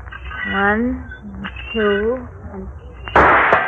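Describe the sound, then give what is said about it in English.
Pistol shots fired at swinging tin cans burst out loud and sharp near the end, following a stretch of people talking, with a noisy crack that rings on briefly. “Okay, watch me with a pistol now. Okay. Start the can swing. Yeah. Check. Here I go.”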